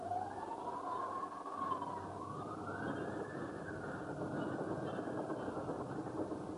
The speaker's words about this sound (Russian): Вот он, поезд из Москвы.